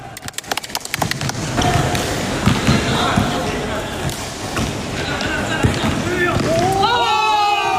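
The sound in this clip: A basketball bounces during a game among colleagues, water-conservancy workers playing after their shifts: a rapid series of sharp thumps at the start, then a dense wash of court noise and shouting voices, with a voice speaking near the end.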